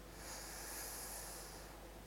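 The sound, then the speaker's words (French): A deep breath is drawn in during a guided relaxation exercise, a soft, steady airy hiss that swells slightly and fades near the end. “là, respirez profondément et sentez le mouvement d'expansion”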